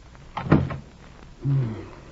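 A door closes as a judge leaves in a radio drama, with a sharp clunk near the middle and a softer, drawn-out sound a moment later, both fairly quiet.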